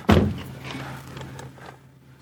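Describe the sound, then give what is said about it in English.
A gate opens at a walled house as a car drives in: one heavy thunk starts it, followed by a fading rattle over a low, steady hum. “Ah, he's opening the gate, driving in.”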